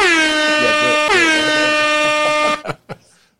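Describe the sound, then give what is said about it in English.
A loud air horn gives two sustained blasts back to back, each holding a steady, brassy pitch. It cuts off abruptly and is followed by a few brief knocks. “I had to hit the horns because that is what we do when we say pass me another, so I had to do it.”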